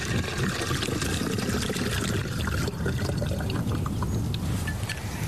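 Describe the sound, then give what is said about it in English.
Water, 400 millilitres of it, pours into a measuring bottle holding primer, a steady, unbroken rushing splash that runs the whole time. “I take the Osmo Primer, I pour the Osmo Primer into the bottle, and all you do is you add 400 mils of water.”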